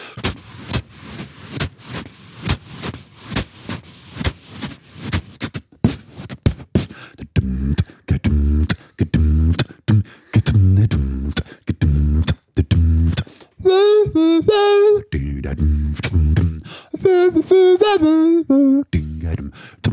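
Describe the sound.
A cappella vocal beatbox blends deep sung bass lines and vocal percussion with brush-like swishes and muted-trumpet effects, a steady rhythmic groove with bright, wavering horn-like tones rising over it in a few places.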